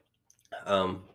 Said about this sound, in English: there was a burp that was stuck. Sorry.